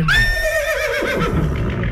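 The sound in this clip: A horse neighs with a loud, shrill whinny that starts high and slides downward in pitch, then breaks into a shakier, fluttering tail over steady background noise.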